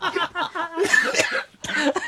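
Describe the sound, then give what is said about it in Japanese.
A single short cough breaks through amid ongoing conversational talking, one brief harsh burst surrounded by speech. “咳出ちゃった。”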